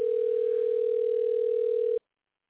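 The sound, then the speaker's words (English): A telephone places a call with a steady dial tone: a single unbroken, clear hum holds for about two seconds, then cuts off abruptly into silence. “He's on the West Coast, and this thing should be dialing his number shortly. It doesn't always work the way it's supposed to, but we can hope.”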